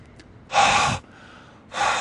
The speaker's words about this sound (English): If I breathe on this,